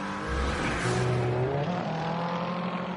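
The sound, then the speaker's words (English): BMW and Corvette race cars roar around a racing circuit, their engines a loud, continuous drone whose pitch shifts as they accelerate and pass. “BMW on Corvette action again a moment or two ago. The far side of the racing circuit.”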